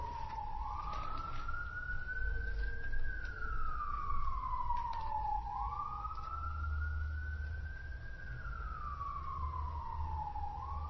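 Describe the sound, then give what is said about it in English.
A wailing emergency siren rises and falls in slow, smooth pitch sweeps, about two full cycles, holding steady and fairly loud over a low background rumble with no talking. “just kind of be gracious with the siren for a moment.”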